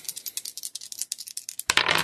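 Dice are rolled for a skill check in a tabletop role-playing game. A rapid run of many light, clicking rattles ends in a sudden, louder clattering burst.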